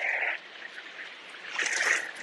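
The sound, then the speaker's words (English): Rain falls on a rainy morning in the Florida Keys as a soft, steady hiss that dips briefly, then swells louder toward the end. “There we got the rain.”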